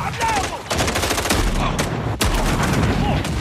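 Shotgun fire in a video game demo: many loud, dense blasts in rapid succession that merge into an almost continuous barrage of gunfire.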